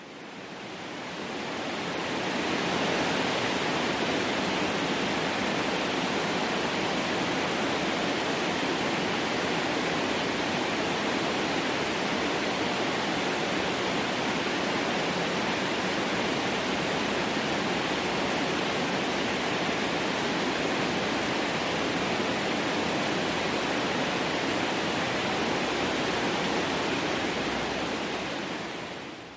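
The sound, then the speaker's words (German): Relaxation noise made from an organic sound source: a steady, even hiss like rushing surf or a waterfall that fades in over the first seconds and then holds constant for about half a minute. “Und die Grundlage für dieses Magical Relaxation Noise war eben eine organische Klangquelle. Und so hört sich das Magical Relaxation Noise an.”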